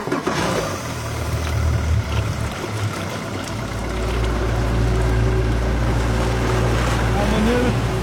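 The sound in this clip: A motorboat engine drones steadily as the boat heads out on Gullmarsfjorden off Fiskebäckskil toward a seaweed farm. The low, continuous rumble grows louder about halfway through and stays strong to the end.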